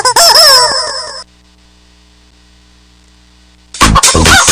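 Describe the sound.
Chicken clucking sound effect: a loud, harmonic squawking burst of wavering calls lasting about a second, followed by near-silence and then an abrupt, loud noisy burst at the end.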